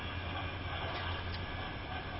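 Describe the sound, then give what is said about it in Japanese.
Faint, steady low rumble and airy hiss inside a Shinkansen Nozomi Super Express high-speed train while it runs, unbroken and even throughout. “Ladies and gentlemen, welcome to the Shinkansen. This is the Nozomi Super Express bound for Tokyo.”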